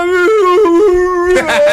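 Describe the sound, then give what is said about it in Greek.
A dog howls along, as if chanting, to a played video: a loud, tonal wail that steps up and down between pitches, then turns into a broader, noisier cry near the end. “Ναι, υπάρχει το βίντεο. Πώς ψέλνει ένα σκυλί.”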